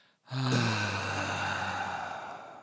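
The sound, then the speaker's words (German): A group of people on a call, counted in on three, breathe out together in one long audible exhale that starts sharply, then slowly fades over a couple of seconds. “Wir atmen jetzt alle mal schön ein. Und jetzt alle an den Geräten gemeinsam auf drei ein wunderbares Ausatmen.”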